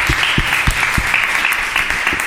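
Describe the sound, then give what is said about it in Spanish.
Applause for a guest on a radio programme about disability and cooperation, a dense, even wash of clapping with a few heavier thumps near the start. “Un aplauso para Antonio.”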